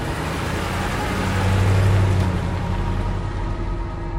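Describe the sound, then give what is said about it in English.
Car engine noise as a car starts and drives away: a steady, broad low rumble and road hiss that swells slightly midway, then holds. “Veronica starts her car and drives away from Victor's workshop.”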